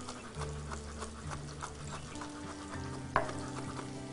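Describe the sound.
Crushed, chopped garlic fries in a pan with zucchini, giving a steady, quiet sizzle and crackle throughout, with one sharp knock near the end.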